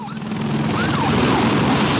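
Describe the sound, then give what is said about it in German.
Sirens wail with wavering, rising and falling pitch over a loud, dense, continuous roar from the engines of firefighting planes and helicopters and from fire truck water pumps at a wildfire on France's Atlantic coast. “Die Sirenen, Motoren von Löschflugzeugen, Helikoptern und den Wasserpumpen der Feuerwehrfahrzeuge.”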